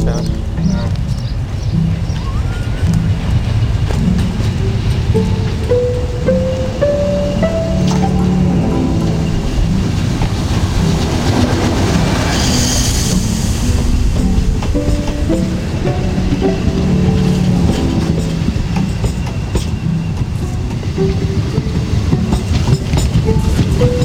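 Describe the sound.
A diesel railcar pulls away from line 2 with passengers aboard, a steady loud rumble and rattle of wheels on rails under a rising engine whine, with voices at times.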